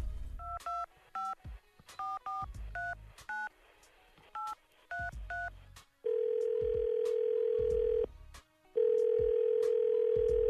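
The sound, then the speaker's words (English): A telephone number is dialed on a keypad as a quick series of short touch-tone beeps, followed by two long, steady ringback tones on the line separated by a brief silence. “Let's dial that number.”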